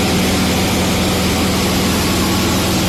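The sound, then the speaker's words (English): A single-propeller light aircraft in flight gives a steady, loud engine drone with a low humming tone and broad rushing noise that holds constant throughout. “Sounds like a single prop light aircraft”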